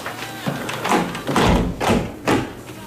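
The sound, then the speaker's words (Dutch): Window being shut: a few dull thumps and knocks of the frame and pane in quick succession, fairly loud and irregular, with no voices. “Venster terug dicht.”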